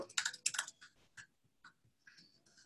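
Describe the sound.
Typing on a computer keyboard: quiet, irregular clicking of keys. A quick burst of clustered keystrokes comes first, then sparser, scattered taps.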